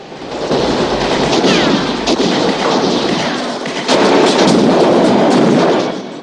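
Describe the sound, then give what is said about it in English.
A ferocious gunfire barrage riddles a house with bullets, shattering a toilet cistern as the roof groans: a loud, dense, unbroken rattle and crackle of shots, swelling again toward the end. “The roof of the house groans and subsides under the ferocity of the barrage. The toilet cistern shatters as it's riddled with bullets.”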